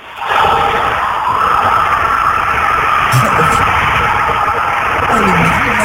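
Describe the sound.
Porsche car engine sound effect with skidding tyres, a loud, continuous roaring engine with squealing tyre noise running throughout.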